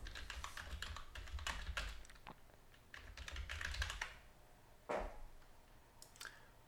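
Computer keyboard typing as someone enters a search, many quick, soft keystrokes in uneven bursts with brief pauses between runs, fairly faint throughout.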